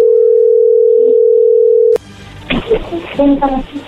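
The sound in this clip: A steady, unbroken telephone dial tone hums for about two seconds as a call is placed, then cuts off abruptly, and a voice starts talking over faint line noise.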